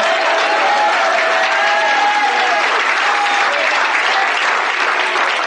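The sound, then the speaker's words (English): Many people clapping their hands together at a church gathering, a steady, dense wash of applause that holds at an even level from start to finish. “So, clap your hands.”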